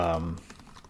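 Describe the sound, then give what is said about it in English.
Typing on a computer keyboard gives quick, faint clicking keystrokes right after a brief bit of speech. “I'm looking it up right now if you hear me typing.”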